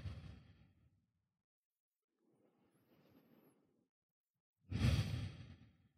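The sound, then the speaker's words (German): Gentle breaths in and out during a seated meditation: three soft, airy breaths separated by quiet pauses, the middle one faint and the last one the fullest and loudest. “Nimm ein paar sanfte Atemzüge ein und aus.”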